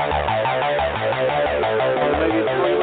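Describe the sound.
Full-band rock music plays from start to finish as an intro song, dense and loud with a steady pulsing beat and layered guitars, with no gaps or voices.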